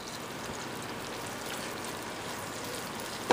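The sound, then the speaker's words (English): Ginger and garlic fry in oil heated on high, producing a dense, steady sizzle like light rain that stays even throughout, with a small knock at the very end. “Once our ginger and garlic just fries up just a little bit, it's already going,”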